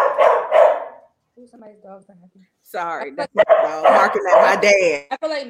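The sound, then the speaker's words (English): Dog barking in a few loud, sharp yips and whining, yelping calls, separated by short pauses. “Somebody's dog. Sorry, like, that's my dog.”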